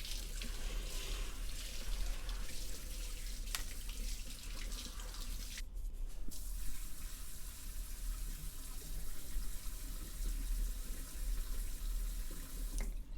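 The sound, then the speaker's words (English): Water runs steadily as hair is wetted during a personal-attention grooming session. The flow is continuous and even for the whole stretch, with only a brief dip partway through and no voices over it. “Just wetting your hair.”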